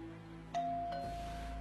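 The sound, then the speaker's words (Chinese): A doorbell rings with two chime notes struck in quick succession, each ringing on as a sustained, clear tone. The chime is fairly quiet over a low, steady hum. “突然门铃声响起，打断了三人的注意力。”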